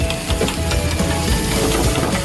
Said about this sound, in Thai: เราจะผัดตัวเนื้อก่อนแล้วเสร็จแล้วเราก็ค่อยจะทำตัวใส่ตัวมันเหมือนเดิมก่อนนะครับ